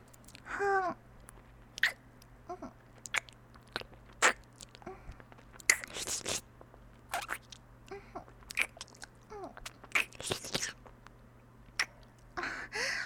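Someone is chewing and biting soft food. Many quiet, irregular crunches and squishy bites sound against a faint, steady background hum.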